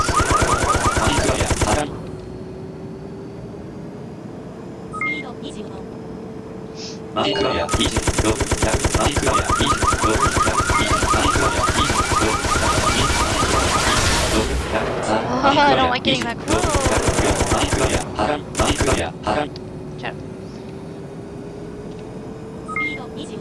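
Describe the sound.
Rapid gunfire in a video game, arriving as several long, loud bursts of fast shots separated by short pauses.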